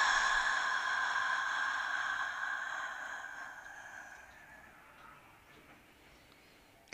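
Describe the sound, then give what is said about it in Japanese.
A long, breathy exhale through the mouth during a lying-down guided relaxation meditation, soft and steady, slowly fading away over several seconds with no talk over it. “口から吐きます。もう一度鼻から吸って、口から吐きます。”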